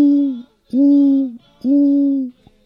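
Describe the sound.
A human voice imitates a dove cooing in a tree, making three drawn-out, low, hooting coos. Each coo holds a steady pitch, dips slightly at the end, and is separated from the next by a short gap.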